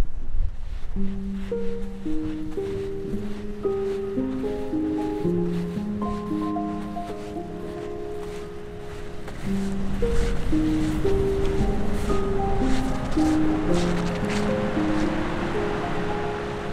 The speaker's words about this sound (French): Bon, on va aller se rapprocher un petit peu de la mer.